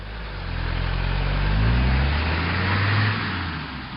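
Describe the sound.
Car driving off: a low engine rumble swells to a peak through the middle, its tones climbing as it accelerates, then eases and fades toward the end.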